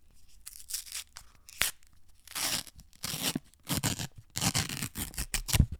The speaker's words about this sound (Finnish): Mulla on nimittäin tässä tämä lakkakinuski tuutti, ja minä kerron nyt teille, että miltä tämä maistuu ja minkälainen elämys tämä on. Ensinnäkin tuutti pitää tietysti avata, no niin.